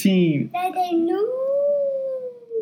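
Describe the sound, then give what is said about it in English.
A voice imitates a little wolf howling: a few short wavering cries, then one long sustained howl-like tone that rises and levels off before tapering slightly, loud and alone. “You sound like a little wolf.”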